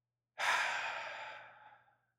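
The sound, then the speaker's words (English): One deep, slow breath, a single long airy rush that starts strong and fades gradually over about a second and a half, heard alone in quiet. “So what I want you to do, take another deep breath.”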